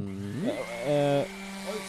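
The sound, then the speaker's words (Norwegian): A voice imitates a power drill whirring, a buzzing, harmonic whine that bends upward and then holds a steadier, louder tone before dropping back to a lower drone. “Jeg driver bare og driller litt her.”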